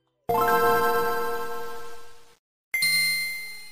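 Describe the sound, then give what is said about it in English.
Game Boy Advance startup sound from the handheld video game console: a shimmering, bell-like chime that swells and slowly fades over about two seconds, then a brief silence and a single bright, high ding. “I love the Game Boy Advance, so I'll talk about it forever. Yeah, agreed. Let's listen to that opening every time you turn on that Advance.”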